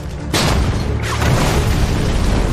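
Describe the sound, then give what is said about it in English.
Enemy shells exploding outside during a battle: a sudden loud, deep blast that swells into a sustained rumbling roar, with a second surge about a second later. “Enemy shells drop outside. The machine guns burst against the walls and windows.”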